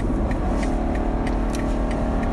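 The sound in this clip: A BMW 420i engine pulls hard while overtaking, giving a loud, steady mid-pitched drone over continuous road roar with no voices.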